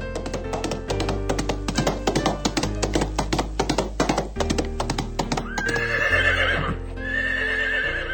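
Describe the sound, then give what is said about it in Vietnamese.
A horse gallops with rapid, rhythmic hoofbeats, then neighs loudly toward the end. “thúc vào bụng ngựa, con ngựa vọt tới trước”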